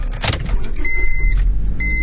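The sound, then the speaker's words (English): Sounds inside a car: a low vehicle rumble with rustling and handling noises, then a steady electronic chime that sounds, stops, and starts again. “I'm in the car now.”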